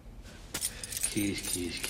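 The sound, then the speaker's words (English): Keys jangle with bright metallic clinks and rattles in a few bursts, moderately quiet over low background noise. “Keys, locks and keys.”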